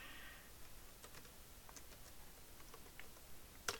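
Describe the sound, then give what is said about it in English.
Soft keyboard typing as a name is entered on a computer to log in: a quiet, steady patter of key clicks with one sharper tap near the end, with no voices. “Typed in my name, logged in.”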